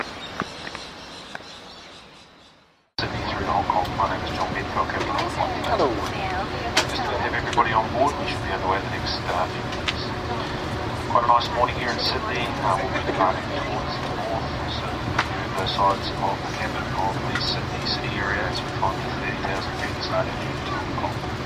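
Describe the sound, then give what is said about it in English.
Steady rumbling train noise as a train leaves Campbellton, New South Wales, bound for the airport. After a brief quieter opening, a dense, even roar holds with faint murmuring voices beneath it. “that's my train from Campbellton to the airport. Just leaving Campbellton, New South Wales and Australia now, on the way back to the UK.”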